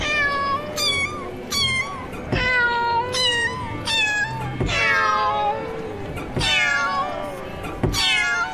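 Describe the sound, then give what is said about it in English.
Cat meows presented as an imaginary cat piano instrument come as many wavering cries, some rising and others falling, at shifting pitches in a continuous loud sequence. “What you see in front of you in the large glass display case is the earliest known example of the cat piano.”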